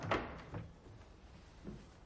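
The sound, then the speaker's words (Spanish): A door being opened in a drama film scene, a few soft, faint knocks and a brief creak with little else around them. “Abre una puerta.”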